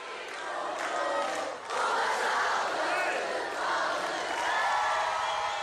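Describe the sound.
A concert audience in Alvéolos cheers and shouts to surprise a singer on his birthday. The many voices form a sustained, loud roar, with a short dip early on before the cheering swells again.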